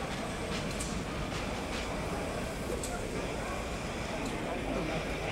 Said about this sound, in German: Bitte einsteigen und die Türen schließen. Der Zug fährt ab.